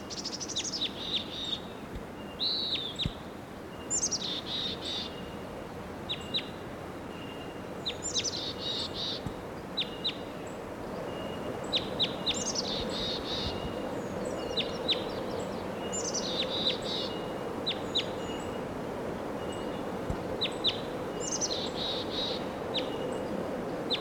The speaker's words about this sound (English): that wild bird.